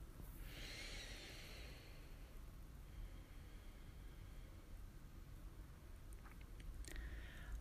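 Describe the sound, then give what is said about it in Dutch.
Yoga lion's breath exhalations, forced out through an open mouth with the tongue out: a few strong, breathy rushes of air, the first the longest and loudest, with no talking. “Drie keer lion's breath. Op elke uitademing open je je mond en steek je je tong naar buiten.”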